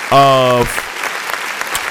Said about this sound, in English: Hit the applause. Hit the applause, bro.